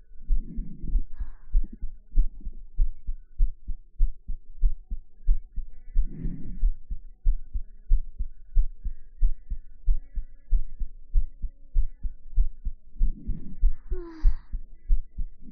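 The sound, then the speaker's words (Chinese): Steady heartbeat with a slow, calm pace: low, regular thumps repeat evenly throughout, with no talking. “我的心跳好平缓啊。”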